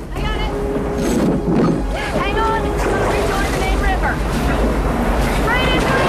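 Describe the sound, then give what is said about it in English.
Rushing water and a boat pitching through churning river rapids, a dense continuous roar of spray and surf with voices shouting over it. “The boat bucks and jolts as they career forwards. They approach another break in the riverbed, where the water tumbles over and forms a churning mass of white foam.”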